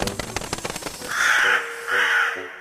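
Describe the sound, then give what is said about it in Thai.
A flock of crows returning from foraging caws: a quick run of many short, harsh calls, followed by two longer, drawn-out raucous caws, loud and with no voices. “ฝูงกาได้กลับมาจากหากิน”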